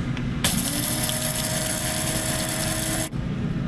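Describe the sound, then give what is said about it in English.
Cardamom pods being ground in a grinder: a steady, dense grinding whir that starts abruptly, runs evenly for about two and a half seconds and then cuts off, with no talk over it. “You can also buy cardamom pods. This is also what we use when we make glögg at winter time, our spiced and hot beverage. Grind this up.”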